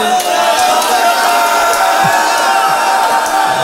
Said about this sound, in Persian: میبینم نوجوانا دارن داد میزنن برا بلفز، عاقبت به خیر بشید ایشالله.